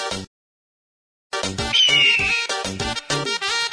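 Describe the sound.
A high, drawn-out eagle scream sound effect with a falling pitch cuts through loud, pulsing dance music at a live party show.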